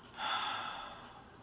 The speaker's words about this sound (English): Take a deep breath and let go of the fear.